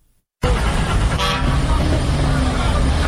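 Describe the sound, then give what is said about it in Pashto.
At a car and bus station in Kandahar serving Kabul-bound vehicles, a horn toots briefly over loud, steady traffic noise that starts abruptly after a moment of silence. “دا په کندهار کې د کابل موټرونو اډه د چیل لدی ځای هر ورځ زرګونه مسافر په کوچنی او غټو موټرونو کې کابل ته تګ راتګ کوي.”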